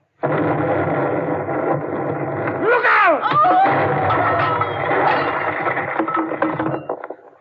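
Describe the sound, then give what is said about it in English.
A loud, sustained blast as fuel tanks explode in a radio drama, a broad roaring rumble lasting several seconds, with a short cluster of rising and falling wailing tones partway through. “What happened? The fuel tanks must have exploded.”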